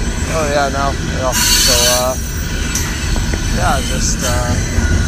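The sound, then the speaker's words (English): A train pulls in, its wheels squealing in wavering high whines over a steady, loud rumble of rail noise, with a few sharp metallic hisses along the way. “waiting for the train to come.”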